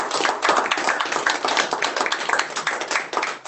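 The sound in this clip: Many hands clap in a dense, brisk round of applause for a student at a school district board of education meeting, the claps blending into a steady patter that holds at an even level throughout.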